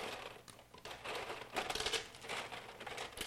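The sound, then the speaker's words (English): Smoked ice clinks and rattles as it is stirred into a margarita-style cocktail made with orange-flavored liqueur. The irregular, quiet clicks and taps continue throughout. “And what we'll do now is stir in some of this smoked ice.”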